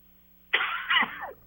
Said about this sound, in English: You got some water there? Sounds like you're coughing a little bit.